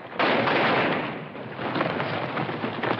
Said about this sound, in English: Ike fires into the cloud, but gets felled by a bullet from Wyatt's gun.